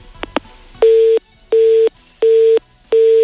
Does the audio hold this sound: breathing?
no